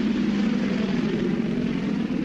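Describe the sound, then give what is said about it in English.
American Apache helicopters hover over a desert area near a border, giving a steady, loud engine and rotor drone that continues evenly throughout with no distinct blade beats. “There's a couple of American Apache helicopters who've been hovering over the area”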